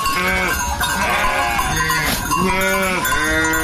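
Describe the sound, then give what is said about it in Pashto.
A flock of hundreds of sheep bleats on desert grazing land in Ghazni's Qarabagh district during a drought, with many loud, wavering, overlapping bleats rising and falling throughout and no voices. “شاوخوا دېرش کلن شایسته خان کوچی د غزنی قرباغ ولسوالۍ په باغیا تر دښته کې د سلګونو پسونو رمه پیایي”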